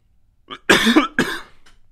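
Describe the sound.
Throat clearing and coughing from someone with something caught in the throat. A small rasp is followed by two strong, harsh coughs and then a faint trailing rasp, with no talking.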